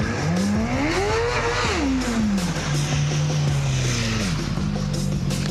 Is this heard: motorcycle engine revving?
yes